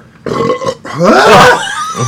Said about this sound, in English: I knew as soon as he burped, man.